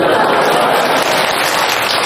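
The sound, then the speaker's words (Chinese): Dense applause from a theater audience at a crosstalk comedy show, a loud, steady rain-like roar of clapping with no breaks. “我这要掌声了。 哎，感谢您的掌声鼓励吧。”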